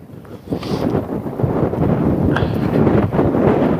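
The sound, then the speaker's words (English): Strong outdoor wind buffeting the microphone of someone walking straight into it, a deep rumbling roar that swells after a quieter start and stays heavy with uneven gusts. “The wind on my ears is... And I'm walking straight into it, so even putting the hood up isn't going to help.”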